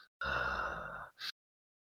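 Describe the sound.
A voice imitates a tabletop role-play character's heavy breathing: one long, hoarse, breathy exhale followed by a brief sharp intake of breath, fairly faint.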